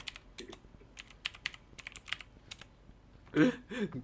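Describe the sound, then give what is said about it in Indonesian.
Typing on a computer keyboard: many quick, irregular key taps at a low level, with a few louder clacks near the end. “Coba ketik deh, coba ketik deh. Hmm. Ketik ketik.”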